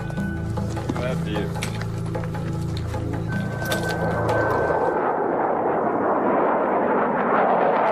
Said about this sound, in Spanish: De repente aparece un avión de caza. Ya ha dado tres vueltas al cerro.